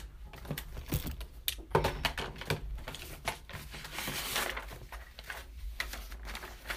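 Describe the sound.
Computer keyboard typing as a short note is written, a long run of many quick, irregular keystroke clicks with brief pauses, at a fairly soft level throughout.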